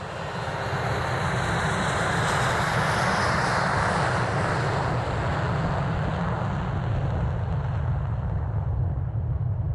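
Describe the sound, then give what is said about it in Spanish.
Deep, steady roar of a spaceship taking off smoothly: a loud, continuous engine-like rumble with broad hiss fills the whole clip at an even level, with no voices. “La nave despegó suavemente”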